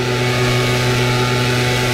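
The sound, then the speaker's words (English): Leaf blowers droning continuously in a long recording, a loud, steady engine hum that holds a constant pitch with no pauses or changes in level. “And I just put in leaf blower sounds. And this is a 3 hour chunk of leaf blowers.”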